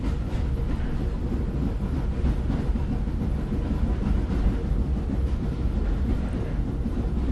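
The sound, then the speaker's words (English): A train rolls over the tracks and through a train station, a continuous low rumble and rattle with faint clacking. It stays moderately loud and even, with no voices. “This is the sound of a train passing over the tracks and through the Salem Depot train station.”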